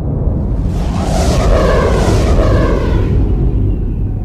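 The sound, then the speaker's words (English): A loud, dense roar of spaceships passing close overhead during a space battle, a continuous rumbling wash with a swelling sweep through the middle of the pass and no voices. “They just flew right over us, sir. That pass was less than 5 kilometers distance.”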